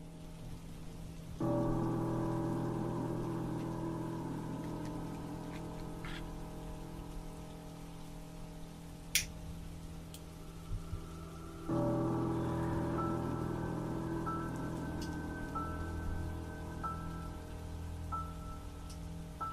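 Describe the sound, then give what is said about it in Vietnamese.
Light, steady rain falls outside at night in Yunnan, a soft continuous hiss over a low drone, with a couple of faint clicks partway through. “Ở bên ngoài kia, mưa vẫn cứ rơi rả rích như một nét đặc trưng của Vân Nam vậy.”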